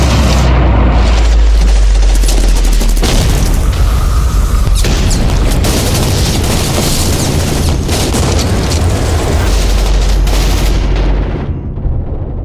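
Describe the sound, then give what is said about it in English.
Heavy gunfire and explosions in combat form a dense, continuous barrage of booms and cracking shots, loud from start to finish with no voices. “Troops in contact, taking heavy fire, need backup now!”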